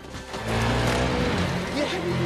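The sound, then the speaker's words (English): A quad bike engine runs loud and steady in a forest, a continuous rough motor drone with a throaty low rumble that holds without pauses for the whole stretch. “Tom appears on a quad bike.”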